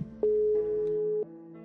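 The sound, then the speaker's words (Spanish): A telephone ringback tone sounds while a call is being dialed: a single steady, mid-pitched electronic tone lasting about a second, heard alone with no talk over it. “está marcando Lu.”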